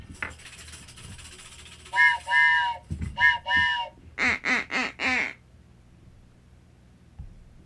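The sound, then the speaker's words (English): A duck whistle quacks in short nasal bursts: two pairs of honking quacks, then a quicker run of four, loud against a quiet background. “Like, me with duck whistles.”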